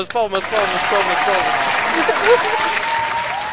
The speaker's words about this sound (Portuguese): Palmas.